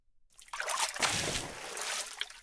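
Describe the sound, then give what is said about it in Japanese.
Hot water is poured over hair during a hair wash, a steady rushing splash that begins after a brief silence and runs unbroken to the end, with light trickling variations. “それでは頭を洗わせていただきます。お湯をかけますので頭を深く下げていてくださいね。かけますよ。”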